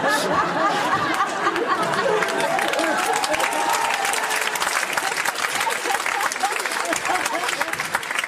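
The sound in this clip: Audience applause fills the whole stretch, a dense, steady patter of many hands at even loudness, with crowd voices mixed in.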